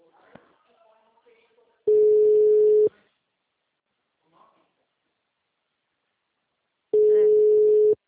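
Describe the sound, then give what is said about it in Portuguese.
A telephone ringing tone on the line sounds as two steady, mid-pitched one-second tones separated by about four seconds of near silence, with a few faint, soft sounds before the first tone. “Tava dando ocupada, agora tô chamando.”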